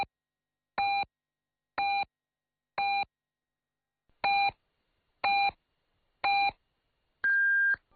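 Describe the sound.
Radio time signal from a Chinese station: six short, evenly spaced mid-pitched beeps, then a longer, higher final beep marking the hour, clean and alone.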